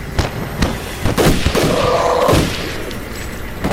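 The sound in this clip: Several sharp gunshots in quick succession, each a hard crack that fades fast, fired during a tense break-in scene with no talk between the shots.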